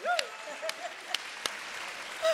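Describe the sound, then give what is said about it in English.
Applause from an audience at a talk on equity and economic justice: steady, dense clapping runs through the whole short stretch, with a few sharper claps standing out. “So go ahead and give us a clap right now.”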